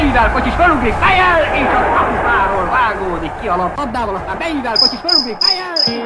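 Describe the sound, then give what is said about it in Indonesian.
Crickets chirping in short high pulses that come through toward the end, faint beneath continuous talk. “Tahukah kamu bahwa suara jangkrik bisa menjadi indikator suhu udara? Ya. Suara serangga kecil ini ternyata bukan sekedar melodi malam yang menenangkan”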